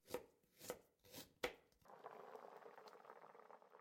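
Knife chopping food while cooking: four sharp, distinct chops, then a steady bubbling sizzle takes over and runs to the end.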